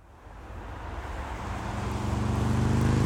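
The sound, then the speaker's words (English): Motorcycle riding toward the listener as a driver prepares to turn left, a low engine drone that grows steadily louder over about three seconds, with a rising rumble over broad road noise. “That's a motorcyclist. It's riding towards you as you're about to turn left.”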